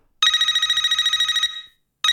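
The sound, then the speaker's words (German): Trilling telephone ring from the intro of a music track. One long, bright, loud ring fades out, then a second ring starts just before the end, with no other sound. “Und da hat so eine Telefonsequenz-Intro.”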